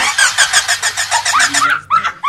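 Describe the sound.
A voice imitates a car engine being cranked to start, a fast run of rhythmic chugging pulses that breaks off abruptly, followed by a couple more short bursts.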